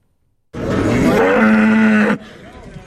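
A cow moos at a livestock market ahead of the Eid sacrificial holiday, one long, loud, low and droning call that ends abruptly and leaves faint background noise.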